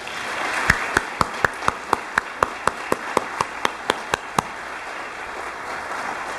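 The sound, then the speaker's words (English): Audience applause welcoming a guest at a church gathering comes as many sharp, evenly spaced claps in a steady rhythm, each crisp and distinct, then stops, leaving a low background hum. “Being in service with them, we're certainly glad to have him here. Would you like to give him a hand?”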